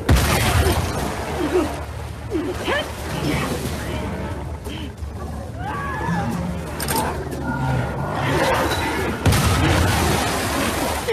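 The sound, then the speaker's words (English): Video game combat against a giant mutated monster and its minion: a dense, continuous layer of booming impacts, crashes and gunfire-like bursts with no quiet gaps, staying loud throughout. “Here we are with the character Abby fighting against one of the hardest enemies in the game, a giant mutated monster along with his minion, the Rat King.”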